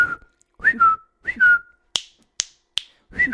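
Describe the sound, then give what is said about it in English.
A person imitates the whistling and finger snapping someone uses to signal: short two-tone whistles come first, then three sharp, crisp snaps, then a final whistle. “and I'm like, stop whistling and snapping. Stop whistling and snapping. It's driving me crazy.”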